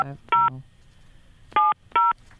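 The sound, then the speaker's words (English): Touch-tone beeps from a hotel room telephone being dialed: three separate short electronic tones with uneven pauses between them over a quiet background. “Well, let me start dialing first.”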